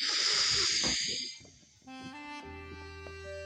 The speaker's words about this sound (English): Just relax your head down and just breathe one more time in and out.